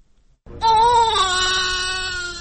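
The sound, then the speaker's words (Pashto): A newborn baby cries in the Médecins Sans Frontières (MSF) maternity hospital in Khost: one loud, sustained, high, tonal wail that begins after a short quiet moment and holds steady to the end. “دا د هغه ماشوم د ژړا اغږ دی چې تازه د خوست د ایم ایس ایف یا د بی پولي ډاکټرانو په زیږنتون کې پیدا شوی.”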